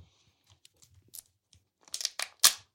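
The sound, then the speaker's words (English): Plastic wrapper of a Kinder Joy egg being torn open: faint scattered crackles at first, then a few louder crinkling tears toward the end, with no talk. “Or should we open the other Kinder Joy just to see if this was just a one-off? Of course. Let's. I'll do it over the mic.”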